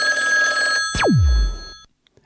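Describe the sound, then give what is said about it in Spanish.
Telephone ringing on an outgoing call: steady electronic tones that cut off into a sharp falling sweep, then silence. “Le hemos llamado a un teléfono de la característica 71, correspondiente a Palermo.”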